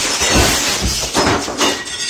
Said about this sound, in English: Uh-oh. I broke the window. Okay, quick, glue? No. Tape? Nuh-uh, it's shattered.